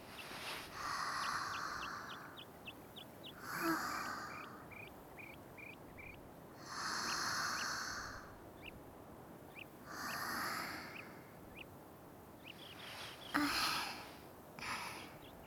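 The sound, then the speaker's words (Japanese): Slow deep breathing in a forest: several long, soft, breathy rushes spaced at even intervals, with small birds chirping and tweeting steadily throughout and no talk. “一緒に深呼吸しましょう。”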